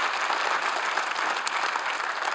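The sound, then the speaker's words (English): A church audience applauds to welcome one another, dense steady clapping that holds at an even level from start to finish with no voices over it. “why don't we just by applause, would you just help welcome each other as we're together as one church in a variety of different locations online.”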